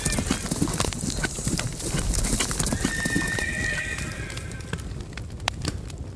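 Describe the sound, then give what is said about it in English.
A horse galloping with a rider, its fast hoofbeats pounding densely and steadily throughout, with a high whinny rising over the hooves partway through. “Ride! Fierce Green Apple! Ride like the wind!”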